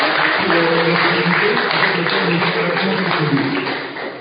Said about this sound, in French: Et je voudrais que nous puissions acclamer très fort